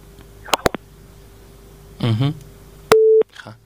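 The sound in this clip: A telephone busy signal sounds after a call is cut off. A few sharp clicks come first, then one loud, steady mid-pitched tone holds briefly before stopping abruptly.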